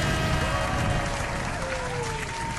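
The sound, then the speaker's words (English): Applause used as a sound effect, a dense continuous wash of clapping at steady loudness with a faint tonal sweep through it; no clear talk. “Cue applause, laughter, all the other sound effects.”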